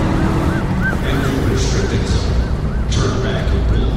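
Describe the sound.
A car speeds during a chase, heard as a loud, continuous roaring rumble. Repeated siren-like warbling tones sound over it throughout.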